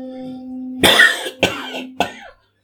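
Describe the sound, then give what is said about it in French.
Three harsh coughs come in quick succession, about half a second apart, with the first the longest and loudest. A faint steady tone hums underneath before the coughing begins and fades out along with it. “ressurgit le spectre que tous redoutent, la toux annonciatrice des mots”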